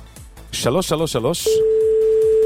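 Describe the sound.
A steady telephone dial tone sounds alone for about a second, a single flat, unbroken pitch that comes right after a brief stretch of talk.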